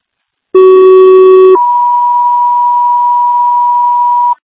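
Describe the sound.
Fire dispatch alert tones for a medical alarm: a loud, steady low tone lasting about a second, then a higher continuous tone held for nearly three seconds before it cuts off.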